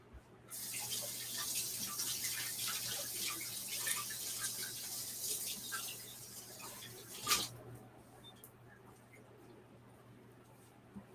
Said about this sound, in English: I'm gonna rinse my hands off really quick.